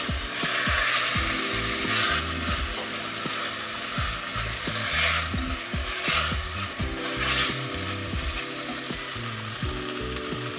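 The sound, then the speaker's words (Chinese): Chopped onion sizzling as it is stir-fried with chicken breast in a pan for a Thai green curry: a continuous hiss of frying broken by repeated sharp clacks and scrapes of the utensil tossing the food. “我这边鸡肉呢，稍微已经有一点点上色了，微微的金黄色。那再来呢，我们就可以把我们的洋葱碎也放下去，好，就稍微让它翻炒一下。”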